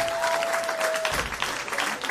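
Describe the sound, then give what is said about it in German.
Dense, steady audience applause for a prize winner being handed a jackpot prize, heard as continuous clapping at an even loudness for the whole clip. “ein Riesenapplaus für dich”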